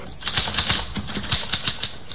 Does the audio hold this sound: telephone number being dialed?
no